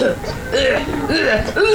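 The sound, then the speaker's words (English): Coughing from a person with a slight cough: a few short, throaty, partly voiced bursts in quick succession, fairly loud and close together. “right now. I have a little cough.”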